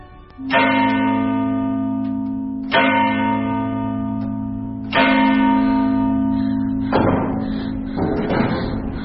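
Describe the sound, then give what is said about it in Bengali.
A large town hall bell strikes three heavy, resonant strokes at even intervals, each leaving a long humming ring that carries into the next. “ঠিক সকাল নটার সময় কল্পনানগরীর town হলের বড় ঘণ্টাটা তিনবার বাজল ঢং ঢং ঢং করে।”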